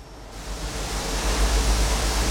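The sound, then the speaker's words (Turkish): Water is sprayed onto rock debris from blasting in a connection tunnel to keep the dust down, making a steady, even hiss over a low rumble that builds slightly. No talk is heard. “Burası bağlantı tüneli. Her tahribattan sonra çıkan enkaz temizleniyor ve toz kalkmaması için üzerine su sıkılıyor.”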